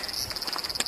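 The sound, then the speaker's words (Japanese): Cicadas sing on a summer day, a steady high-pitched buzzing drone that pulses quickly and evenly, with a slightly louder burst near the end. “ただいま セミが鳴いてますね。”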